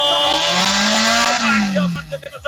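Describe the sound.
A race car revs at the start line, its engine note climbing steadily in a loud drone and then sagging back down before breaking into uneven bursts, with a voice talking over it.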